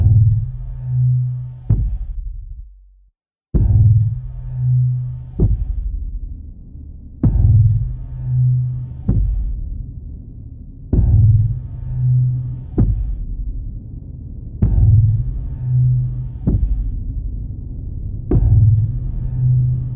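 A heartbeat-like throb built from an old synthesizer thud blended with a sampled kick to a guitar amp and then processed: slow, evenly spaced low thumps about every two seconds, each decaying into a steady humming drone, with one brief gap of silence early on.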